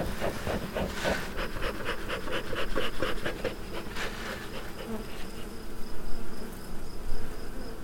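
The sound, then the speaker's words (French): Honeybees buzzing at a beehive while a beekeeper works the colony with smoke, a dense, steady droning hum that pulses and swells in loudness without pause. “La fumée va les calmer, ça va les occuper, ça va les obliger à ventiler. Pendant ce temps-là, on peut travailler sur la ruche.”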